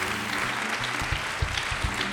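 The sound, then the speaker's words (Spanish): Church audience clapping their hands, a dense, steady wash of many hands with a few louder low thumps in the second half. “Everybody claps. Todos aplauden. Everybody clap your hands. Todos aplauden sus manos.”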